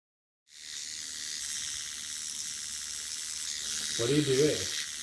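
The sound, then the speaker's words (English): An electric bikini trimmer shaves chin hairs with a thin, high, steady buzz. It starts abruptly after a moment of silence and holds an even pitch, and a voice cuts in briefly near the end. “I'm shaving my chin hairs. What is that thing? It looks like a little magic marker for princesses. It's like supposed to be used for bikini shaving.”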